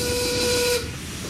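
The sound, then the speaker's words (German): Steam whistle of a train departing from a station platform: one loud, steady, sustained tone over hiss lasting most of a second, then cutting off and leaving a quieter hiss. “Achtung, Bahnsteig 1, Zug Ecke fährt ab. Zug fährt ab!”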